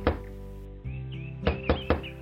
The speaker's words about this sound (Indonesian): Tiba-tiba, pintu rumahnya diketuk.